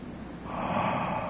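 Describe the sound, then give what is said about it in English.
A group of people taking a deep breath in together, heard as a single airy, rushing inhale that swells slightly in loudness over about a second. “can y'all just take a deep breath? One more time.”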